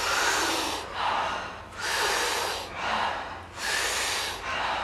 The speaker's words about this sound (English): And the exhale is a nice, soft exhale. We do it rhythmically, we do it together. It sounds like this.